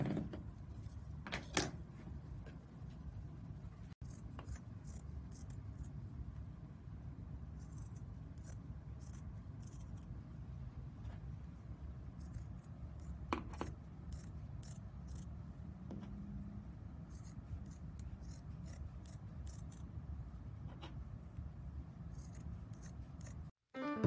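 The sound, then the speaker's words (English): Scissors snip faintly while cutting half-inch strips for a no-sew project. A few scattered cuts sit over a low, steady background hum. “And then once you have that, we will cut about 1/2 inch strips.”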